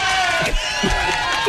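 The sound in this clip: A crowd-cheering sound effect, like a stadium audience roaring, played by mistake in place of a forest-animal ambience; a loud, continuous wash of many voices lasting a moment.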